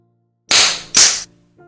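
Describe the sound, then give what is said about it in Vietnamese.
Two sharp slaps to the face, each a loud, crisp smack that cuts off quickly, the second following close after the first. “Vang lên hai tiếng, Tống Hồng không chút do dự đánh vào mặt Ân Tịch.”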